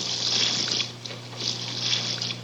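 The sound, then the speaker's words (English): Liquid is poured into a cooking mixture: a steady, hissing trickle that swells and eases a couple of times over a low, constant hum. “Now we add enough liquid to cover.”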